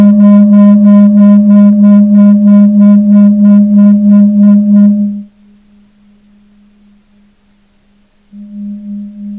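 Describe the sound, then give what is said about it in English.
A low pure tone, offered as a third-chakra sound, pulses rhythmically with a buzzy overlay for about five seconds. It then carries on as a fainter plain steady hum and swells slightly again near the end. “Here's a third chakra kind of sound.”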